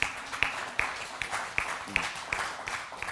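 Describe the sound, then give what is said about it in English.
Applause from a church audience greeting a speaker: steady, rhythmic claps at an even pace throughout, fairly soft over a broad hiss of crowd noise. “Please put your hands together for Miss Susan.”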